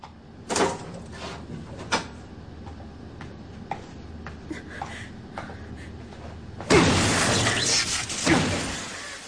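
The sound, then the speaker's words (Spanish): Crashing, shattering blows of an emergency axe smashing a control console. A few sharp hits ring out early on, then a loud, sustained burst of breaking and crackling debris comes near the end. “Destroza con él el panel de control.”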